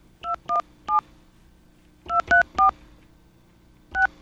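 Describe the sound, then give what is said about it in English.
Touch-tone telephone dialing of a 217 area code number: eight short, clear beeps in three bursts of three, three and two, separated by brief pauses and heard alone. “Okay, I think enough time has passed where I can call that number again.”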